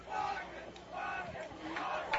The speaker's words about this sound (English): And believe it or not, that's the Flatonia crowd, or the Flatonia dugout, chanting, wanting a walk here.